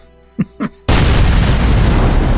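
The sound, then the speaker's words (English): A dynamite blast thrown at a cabin's front door: two soft thuds, then a loud, broad roaring burst that holds steadily for over a second. “lit the fuse and tossed the dynamite”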